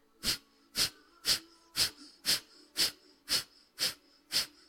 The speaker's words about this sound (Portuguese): Vamos inspirar pela narina direita profundamente.